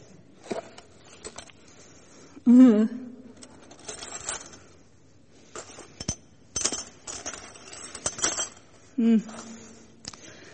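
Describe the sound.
Pieces of a broken ceramic cup clink and scrape as they are handled, a scattered run of sharp little clicks and knocks, with a person speaking now and then.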